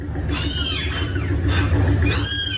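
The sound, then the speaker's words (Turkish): Newborn kittens trapped under the floor of a house in Istanbul meow in several thin, high-pitched cries, each rising and falling, over a steady background hiss. “Sesleri duyulan yavru kediler bulundukları yerden çıkarılamayınca itfaiyeye haber verildi.”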